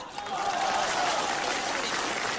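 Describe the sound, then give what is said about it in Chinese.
Audience applause at a live performance, with the men in the crowd clapping warmly: thick, steady clapping that fills the short moment at an even level. “因为我发现男同胞的掌声啊热烈。”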